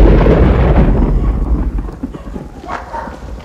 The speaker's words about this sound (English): At the shelter, lightning flashes.